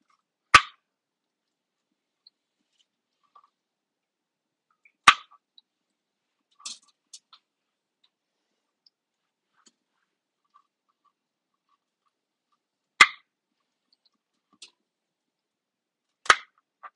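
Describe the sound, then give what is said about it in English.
A knife cuts broccoli on a small cutting board in a home kitchen. A few crisp, isolated chops and taps are separated by long stretches of near silence, with fainter clicks in between. “So I grabbed too small of a cutting board. Get ready for some cutting ASMR.”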